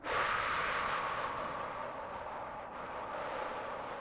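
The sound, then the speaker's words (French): A slow, deep exhalation during a breathing exercise: a long, steady, breathy rush of air that lasts about four seconds and eases slightly toward the end. “je prends tout le temps de vider l'air qui a été inspiré.”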